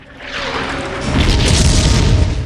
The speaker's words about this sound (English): As more explosions erupt around him, Mitchell